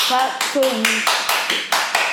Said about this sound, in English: Clap for whoever does it.